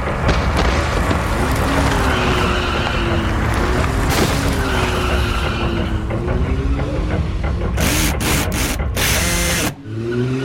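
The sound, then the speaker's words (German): A car's tires skid and squeal as it drives over a person lying on the ground, repeatedly. Loud, sustained engine and road noise carry a wavering squeal and end in a few sharp bursts before a sudden drop. “fahren nun mit Pelosi am Steuer über Pasolini hinweg, mehrfach, ihn so liegen gelassen.”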